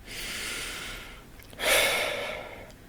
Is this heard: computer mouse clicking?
no

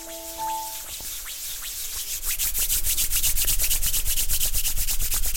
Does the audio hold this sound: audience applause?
no

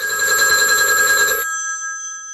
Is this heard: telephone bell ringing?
yes

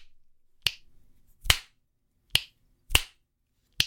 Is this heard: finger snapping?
yes

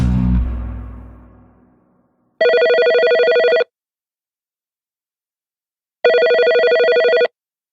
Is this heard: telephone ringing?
yes

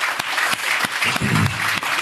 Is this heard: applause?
yes

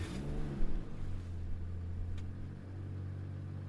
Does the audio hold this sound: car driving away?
yes

